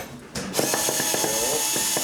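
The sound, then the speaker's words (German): Ratcheting clicks from a hand tool unscrewing a screw, a steady series of sharp mechanical ticks with a faint rasp between them and no talk. “Dann vorne, ich schraube nochmal raus.”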